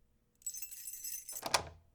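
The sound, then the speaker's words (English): Keys jangling in a temperamental door lock, a bright metallic rattle lasting about a second, followed by a sharp click as the lock gives and a short thunk. “Oh, this tricky thing. The lock is a little temperamental. Easy fix, though.”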